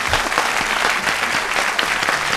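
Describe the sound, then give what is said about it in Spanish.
A studio audience at a Spanish-language show breaks into dense, sustained applause. The clapping is loud and even throughout, with no voices standing out. “Un aplauso, por favor, para él, de todas formas.”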